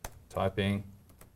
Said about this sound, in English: So as soon as you type jQuery and press tab,